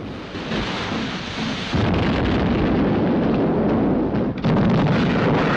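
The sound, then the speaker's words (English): Naval gunfire bombardment pounds the ship Amethyst: a loud, continuous roar of heavy blasts and rumbling that thickens partway through, with no clear gaps between the impacts. “The Amethyst is shrouded in grey smoke from the continual bombardment.”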